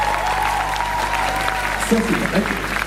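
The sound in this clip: An audience at a French evening event claps and cheers for the organizer over a low steady hum. A sustained cheer sounds early, and a voice briefly surfaces near the end.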